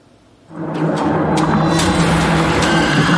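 Motor noise of an unmanned ground robotic vehicle carrying cargo on its own along a road to a military position. The sound starts abruptly, then holds as a loud, steady rumbling drone with a few brief higher clicks.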